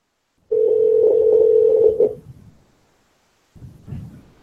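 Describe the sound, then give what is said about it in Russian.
Steady telephone dial tone, loud and unbroken for about a second and a half, then cut off, leaving a short fading hum and later a faint low rumble. “Попробуй набрать 111.”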